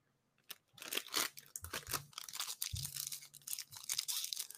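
A trading card pack wrapper is torn open: many crinkly, crunching bursts of foil and plastic tearing and rustling in quick succession, fairly loud throughout.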